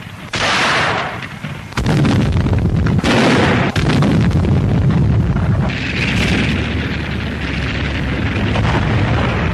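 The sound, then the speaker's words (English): Anti-aircraft artillery firing at Soviet tanks: a few heavy booming blasts in the first four seconds, then a continuous loud rumbling roar of gunfire. “Flakartillerie feuert auf sowjetische Panzer.”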